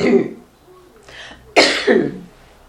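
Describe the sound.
Coughing from something caught in the throat: a brief vocal sound, then two sharp, rough coughs in quick succession.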